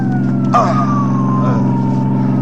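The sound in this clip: An ambulance siren wails in one long, smoothly falling tone, fairly loud over a low engine rumble, with a brief sharp burst of noise near the start.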